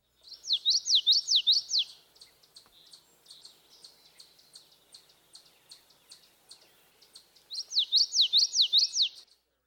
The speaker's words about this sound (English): The notes of the yellowthroat's vocalization are normally connected, and this gives a rolling quality to his song.